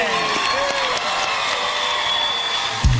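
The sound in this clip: Cheering and applause from an audience greeting a live stage performance, a steady, dense wash of crowd noise with whoops that holds throughout, ending in a brief louder thump.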